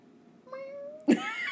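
A house cat meows once in a faint, drawn-out, slightly rising cry, then lets out a sudden louder, harsher call that trails off, with no talking.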